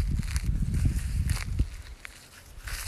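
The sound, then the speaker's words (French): A person walks, their footsteps landing as several soft, low thuds in an uneven rhythm. The steps grow quieter and sparser toward the end. “Vous entendez peut-être encore mes pas, c'est parce que je marche toujours”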